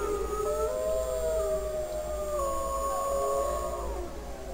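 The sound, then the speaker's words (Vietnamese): A large wolf howls in a long, sustained, wavering tone with layered harmonics, holding fairly steady before sliding lower near the end, over a low rumble. “Nó xoay mình đi, lạnh lùng ra lệnh. Lập tức một con sói lớn tiếng gầm lên văng mệnh lệnh đó ra.”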